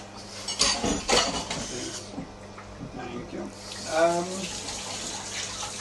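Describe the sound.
Water runs steadily from a kitchen sink tap while pastry is being rolled out. The rushing is continuous and fairly soft, with brief louder splashes near the start.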